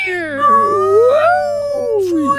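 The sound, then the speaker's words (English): Whale calls: long, tonal moans rich in harmonics that glide slowly up and down in pitch, sounding alone and fairly loud. “So let's just listen to some whale calls.”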